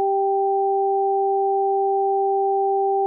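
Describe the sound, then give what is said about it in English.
Two pure sine tones an octave apart, alternating high and low between the ears to create the octave illusion, blend into a steady, loud, unwavering pair of tones with many faint, evenly spaced ticks at each switch. “And at the same time, a low tone alternating with a high tone in the other ear. High low on one side, low high on the other.”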